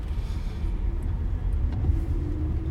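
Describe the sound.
Steady low rumble of a car being driven, heard from inside the cabin: continuous engine and road noise with an even level throughout and no voices or distinct events.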